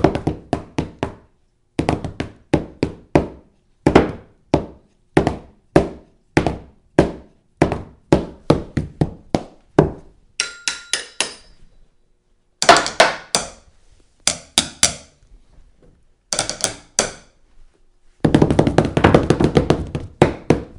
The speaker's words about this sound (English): And what better way to usher it in than with a impromptu on the furniture drum roll.